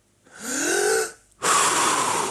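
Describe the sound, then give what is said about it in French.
One slow breath: a long inhale with a faint whistling, rising tone, a brief pause, then a louder, breathy exhale that fills the rest. “Étape 1, respirer.”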